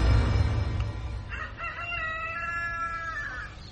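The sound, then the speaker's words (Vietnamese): Rooster crowing behind a house: one loud, drawn-out crow that rises and then holds for about two seconds before breaking off, with a rough, noisy patch just before it. “Khi bầy rối ré lên tiếng cười trong đêm, cũng là lúc tiếng gà trống đập cánh gáy vang sau nhà.”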